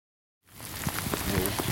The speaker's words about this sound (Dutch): Het weer wordt er vandaag niet beter. Het begint goed te regenen.